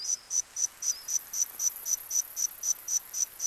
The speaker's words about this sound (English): Scientists have modeled the calls of insects that lived alongside the dinosaurs.